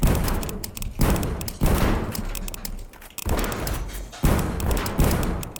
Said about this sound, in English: This is awesome. Shotguns, as they call it.